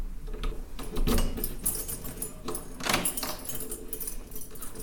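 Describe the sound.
Keys jangle and rattle as a door is carefully locked: a few faint bursts of metallic clinking and clicks over a quiet background.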